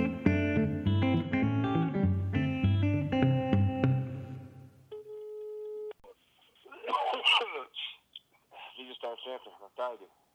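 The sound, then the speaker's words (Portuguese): A phone call to a video rental shop ringing out: a short music jingle gives way to a single steady ring tone, then voices talk over the line in bursts. “eu vou ligar agora para tentar conversar com o dono da locadora”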